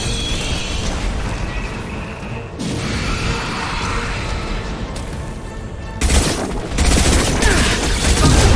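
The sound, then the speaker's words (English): Anti-ship batteries in a video game fire at a vessel: a dense, unbroken barrage of heavy gunfire and booms that gets louder in a harsher burst toward the end. “Firing anti-ship batteries at collector vessel.”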